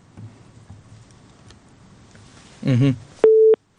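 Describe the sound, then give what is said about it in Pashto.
Telephone busy tone after a call from Jordan dropped: one steady, mid-pitched beep follows a short burst of crackly noise, with a faint low murmur earlier. “د اردن کې اړیکه شلیدلې ده”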